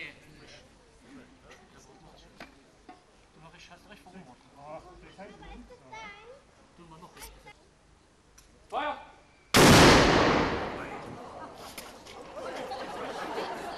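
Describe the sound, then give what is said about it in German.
Ceremonial gunfire in front of Wolkenstein Castle after a flag consecration. Crowd chatter gives way to a sudden, loud booming blast that rolls on and slowly decays. “Nach der Fahnenweihe und der Übergabe gab es im Anschluss noch ein Schießen vor dem Wolkensteiner Schloss.”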